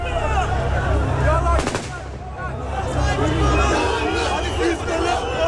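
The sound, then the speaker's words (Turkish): Gunfire during tense street unrest beside tanks, with civilians, police and soldiers present on a city avenue opposite the police headquarters. A sharp burst of shots cracks out in the middle over a constant rumble of crowd noise and talking. “Zaman zaman silah sesleri geliyor. Anons çekmeye çalıştığım zaman makineli tüfek seslerini duydum.”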